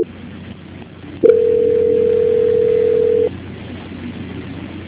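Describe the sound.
A telephone line tone plays during a call transfer: a single steady, mid-pitched tone holds for about two seconds over a constant background hiss, then cuts off abruptly.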